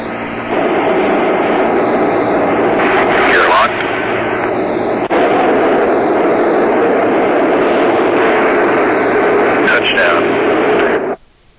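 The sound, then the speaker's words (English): Steady roar of an airplane on landing approach with landing gear down, a continuous dense drone with muffled, radio-like voices over it, cutting off abruptly just before the end. “And gear down. Altitude 400 feet.”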